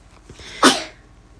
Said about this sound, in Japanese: くしゃみが出るね